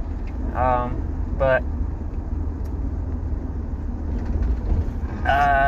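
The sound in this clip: Steady low rumble of a car driving out toward the beach at sunset. The engine and road noise stay even throughout, with a few brief higher-pitched bursts on top.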